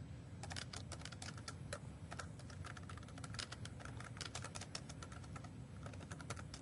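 Typing on a computer keyboard as a command is entered: many quick, quiet keystrokes clatter in an uneven rhythm throughout.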